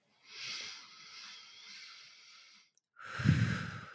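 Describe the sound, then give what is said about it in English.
A deep relaxing breath during a guided hypnosis session: a long, soft, airy inhale fades into a brief silence, then a fuller, heavier exhale with a breathy low rush. “Take a nice, deep, letting go breath. We'll do that one more time.”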